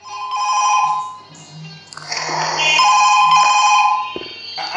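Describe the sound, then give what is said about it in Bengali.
A telephone ringing with a melodic electronic ringtone, loud sustained tonal notes that dip briefly and then return fuller and louder. “আমি কি ফোনটা ধরবো? কেন, আমার phone আপনি কেন ধরবেন? রোজ কি আপনি আমার ফোন ধরেন?”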